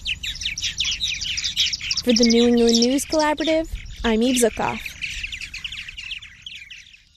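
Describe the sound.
Birds chirping and calling near their nesting gourds, a busy high twittering that runs through the whole clip while a voice speaks briefly in the middle.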